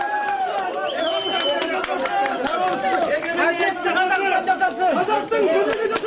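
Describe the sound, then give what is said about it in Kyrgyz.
A crowd noisily greets a woman as she leaves a courtroom, with many overlapping voices chattering, calling and exclaiming at once in a continuous excited hubbub. “Сот залынан чыгып бараткан Сайрагүл Сабатбайды дуулдап тосушту.”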